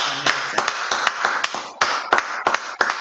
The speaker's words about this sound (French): Est-ce qu'on peut encore acclamer Jésus